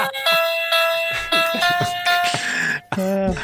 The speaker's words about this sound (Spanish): Pues Apocalipsis Now a través del Jitsi sonando una corbata piano.